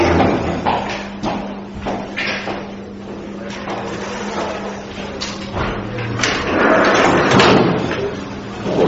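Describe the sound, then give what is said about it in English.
Windows are opened during a Torah class with a series of sliding scrapes, knocks and thuds. A low steady hum runs underneath throughout. “And at Har Sinai, does anyone mind if I open some windows?”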